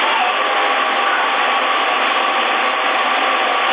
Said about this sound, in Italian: C'hai il ventilatore acceso, l'alimentatore? Beh, c'è la ventolina, sì.